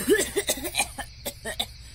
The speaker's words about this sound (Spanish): ¡Ay, me tosió! ¡Esta loca me tosió en la cara!